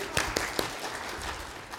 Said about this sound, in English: Give yourself a big round of applause.